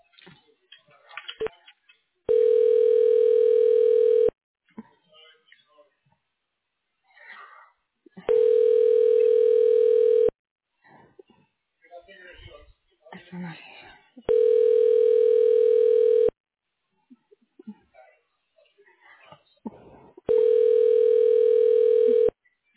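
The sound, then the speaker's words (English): A telephone line during a call transfer to voicemail gives four steady, evenly spaced tones, each about two seconds long, with faint clicks and crackles in the quiet gaps between them. “she's not here today, but I can transfer you to her office to leave a voicemail”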